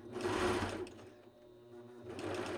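Sewing machine stitching the crotch seam of kid leggings: two bursts of fast whirring with a quieter, slower stretch between them.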